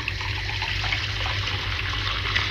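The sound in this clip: Water is poured steadily into a glass with lemon as part of a drink, making a continuous splashing gush with no pauses for the whole stretch.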